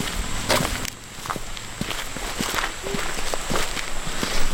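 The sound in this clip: Footsteps crunch along a mountain trail near a national park headquarters in the Great Smoky Mountains, many uneven steps in a steady walking rhythm with faint rustling underfoot, alone without talk.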